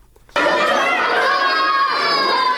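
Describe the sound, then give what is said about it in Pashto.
Children at play during a few minutes of school recess break into a dense, high-pitched mass of shouting and chatter that starts abruptly and stays loud and steady. “د ورځې لس بجې دي، ماشومان هم د تفریح په دې څو دقیقیز وخت کې لوبې کوي.”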